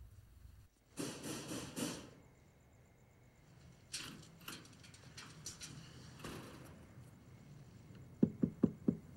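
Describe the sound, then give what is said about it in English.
Four sharp knocks on a house door come in quick succession near the end, after a longer stretch of quieter, mixed background noise. “Mac arrives at Rose's house and knocks at the door.”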